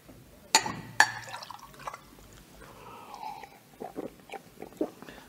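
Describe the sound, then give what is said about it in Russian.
Water poured from a water carrier's vessel into a cup: two sharp clinks, then a faint, soft trickling with light drips. “Эй, водонос! Да? Налей.”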